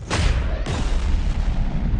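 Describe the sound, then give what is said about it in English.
Deep roar of a Delta II rocket lifting off from Cape Canaveral with the Mars Polar Lander, a dense, continuous rumble of thunderous low crackle that holds steady throughout, with a brief break in texture partway through. “Ignition. We have liftoff of the Delta II rocket carrying the Mars Polar Lander”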